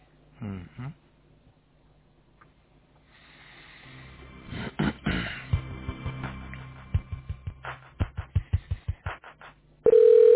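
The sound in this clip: A telephone line tone sounds while a call is transferred: faint irregular clicks and muffled bursts, then a loud steady tone near the end.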